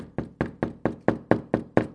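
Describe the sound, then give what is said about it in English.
Eight evenly spaced knocks on a door, each a firm, hollow rap with a short decay, repeated at a steady pace with no voices. “there was a knock at Don Miller's door.”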